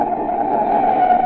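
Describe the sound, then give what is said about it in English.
A car brakes hard in an emergency stop, its tyres giving one continuous, loud, harsh squeal mixed with rushing noise, heard alone for just over a second. “That's the sound of a car as a desperate motorist has jammed on the brakes in an emergency.”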